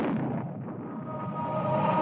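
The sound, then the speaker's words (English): A TV screen explodes after a hammer is thrown at it in a 1984 Apple Macintosh TV ad. A loud, sustained rumbling blast of noise lasts about two seconds, with a faint tonal hum emerging toward the end. “But then a woman throws a hammer at Big Brother and the screen explodes into a white light.”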